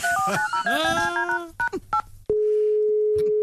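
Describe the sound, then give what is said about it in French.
Touch-tone dialing as a phone call is placed: a quick run of short electronic beeps, then a steady, unbroken tone that holds to the end. “Ok, Goglet, appelle le cours Sacha Guitry. Ok, Brigitte, j'appelle Pierre Arditi.”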